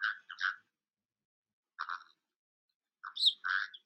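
A pet bird chirps in short, high bursts, a few quick notes at a time in three separate clusters with silent gaps between them.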